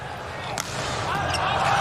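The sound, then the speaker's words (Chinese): A hard volleyball jump serve by China's Wang Bin is struck, making one sharp smack early on over a steady background wash. “王斌大力跳发。”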